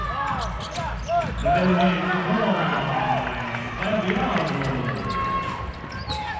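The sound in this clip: A basketball is dribbled repeatedly by a player holding the ball for a long time during a game, its bouncing heard under steady crowd noise and voices.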